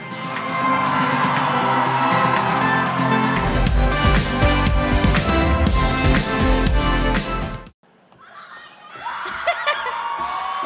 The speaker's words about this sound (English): Let's give a round of applause for Billboard Philippines Global Force honoree Sarah Geronimo.